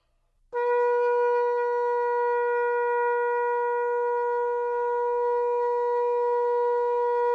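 A long tekiah gedolah note on a shofar, a ram's horn, played by a woman. One steady, loud, bright tone with strong harmonics starts abruptly and holds without a break to the end. No voices.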